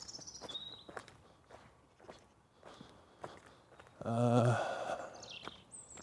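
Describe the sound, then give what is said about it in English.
Soft footsteps of a person walking away, several quiet, evenly spaced steps, with a brief louder sound breaking in near the end. “I'm gonna walk off into the background.”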